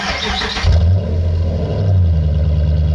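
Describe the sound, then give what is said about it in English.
Electric fuel pump running: after a brief hiss, a loud, steady low hum sets in and holds evenly, its tone shifting slightly partway through. “Oh, electric fuel pump. Sounds good.”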